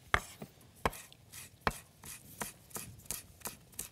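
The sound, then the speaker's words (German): A knife chops fresh mint in a steady series of sharp, fairly quiet strikes, with many evenly paced chops and no talking. “Schneide ich mal ein bisschen Minze.”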